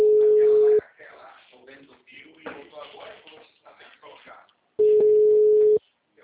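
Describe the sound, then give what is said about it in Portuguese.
Telephone ringing while a call is placed: two long, steady ringback tones at an even pitch, separated by a stretch of a person talking. “Vou ligar pra ele.”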